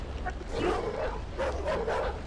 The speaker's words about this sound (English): Prologue: sounds of heavy rain, Rottweiler dogs barking.